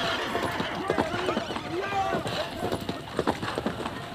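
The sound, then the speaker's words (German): Galloping horses in a desert adventure scene, heard as rapid, irregular hoofbeats that thud steadily throughout at a fairly even loudness. “packt unsere Pferde auf! Galopp!”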